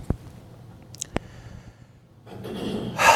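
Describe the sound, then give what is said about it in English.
A deep cleansing breath from a person: a few sharp clicks, then a long, breathy rush of air that builds and grows louder toward the end. “Deep cleansing breath. There you go.”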